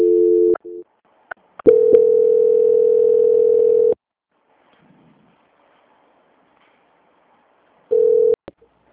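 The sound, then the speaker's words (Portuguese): Telephone transfer tones while a caller waits on the line: a steady mid-pitched tone in a few bursts of unequal length, including one long held stretch. Sharp clicks and quiet gaps separate the bursts. “peço que aguarde em linha que vou transferir o contato para o controle de qualidade”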